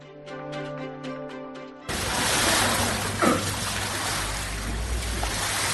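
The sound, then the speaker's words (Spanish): Flood water is swept with brushes and scooped with buckets in a supermarket in Almendralejo, Badajoz. A steady, broad swishing wash follows a short passage of sustained musical tones. “Pues con cubos y, como escuchas, con cepillo en mano, andan a esta hora en buena parte de la provincia de Badajoz, por ejemplo, en el supermercado de Almendralejo”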